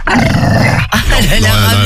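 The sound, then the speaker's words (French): A very annoyed female dog growling: a loud, continuous rough snarl with whiny, wavering tones, broken by a short pause before it resumes. “Oui, ça l'énerve, elle est très très énervée. Elle grogne.”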